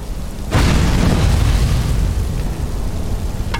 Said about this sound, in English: I started a fire.